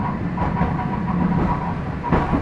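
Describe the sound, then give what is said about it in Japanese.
Rumble of a city tram in Toyama rolling on its rails, a steady low running drone with light rhythmic clicking and a brief louder clack near the end. “次止まります。 富山汽鉄市内電車をご利用いただきありがとうございます。”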